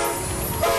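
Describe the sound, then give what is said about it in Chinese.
China-Europe Railway Express freight train departing: a low rolling rumble of the train, with a steady horn tone entering near the end of the brief stretch. “这是中欧班列出发的声音，”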